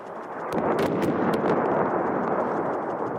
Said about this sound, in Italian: Il suono di un bombardamento tardi ieri sera sulla periferia meridionale di Beirut, roccaforte di Hezbollah.